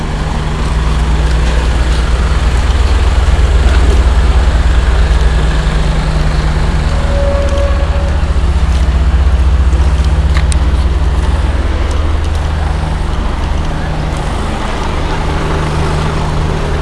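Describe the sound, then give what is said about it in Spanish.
25-tonne trucks driving, a loud, steady low engine drone with a deep rumble that holds almost unchanged throughout. “estos son los camiones de 25 toneladas”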